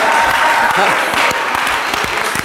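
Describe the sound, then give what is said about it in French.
A church audience applauds in praise of the Lord during a worship service. Loud, continuous clapping fills the whole moment, with voices mixed in. “Acclamez encore le Seigneur.”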